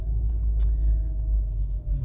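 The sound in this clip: A car drives with a low, steady rumble that continues throughout.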